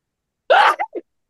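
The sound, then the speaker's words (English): A single sneeze: a sharp, loud voiced burst followed by two short, fainter trailing sounds, with silence before and after. “I sneezed, so it can't be true.”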